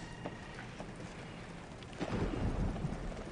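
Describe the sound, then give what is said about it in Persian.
A thunderstorm at night brings a steady hiss of rain, with a deeper rumble of thunder swelling partway through. “ظاهرن طبیعت امشب یکم نور به همون هدیه داده. طوفان برقو قطع کرده؟”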